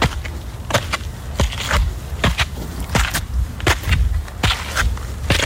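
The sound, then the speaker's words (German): Footsteps climbing a stepped hillside path in Heidelberg, a steady run of many crunchy, scuffing steps in an even walking rhythm over a constant low background rumble. “Du gehst einen mit Treppen bestückten Berg rauf und ich würde sagen, das klingt so, als wenn der Berg in Heidelberg wäre.”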